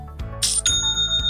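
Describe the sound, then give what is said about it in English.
An online store's sale notification chime rings out: a quick bright ding followed by clear, sustained high bell-like tones over a low steady background, with no talking. “That sound is music to my ears. It's the sound of another sale on Shopify,”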